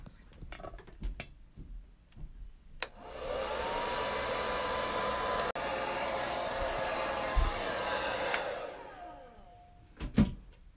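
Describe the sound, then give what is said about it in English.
A hair dryer blows on someone's hair in a steady whooshing hum for about six seconds. Soft clicks and handling noises come before and after it, and the whole sound is fairly quiet. “So I'm gonna blow dry this again.”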